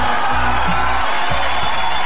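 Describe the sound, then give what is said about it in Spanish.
A studio audience applauds and cheers for a listener, a steady wash of clapping with some voices mixed in underneath. “Aplausos para la auditora.”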